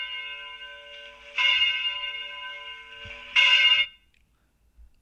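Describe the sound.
Church bells ring as a sustained, blended tone that swells louder twice, the second time brightest, then cuts off abruptly, leaving near-silence with a faint low thump.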